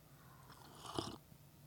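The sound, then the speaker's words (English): A single soft sip of coffee, a brief faint slurp that rises and fades within a moment against near silence. “Excuse me while I sip my coffee.”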